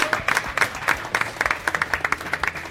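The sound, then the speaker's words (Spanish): Applause from an audience: many hands clapping in a dense, steady patter of sharp claps, loud and continuous through the short burst. “tenemos que darles un aplauso porque se lo están currando”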